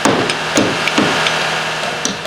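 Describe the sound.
Construction noise from homes being rebuilt in a neighborhood after a fire: a few sharp hammer-like knocks ring out over a steady, low engine drone, with no voices.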